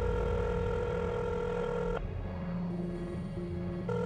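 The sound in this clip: Ringback tones of an outgoing telephone call in a drama: steady electronic tones broken by short pauses, with a few tone bursts over a low background hum and no talk.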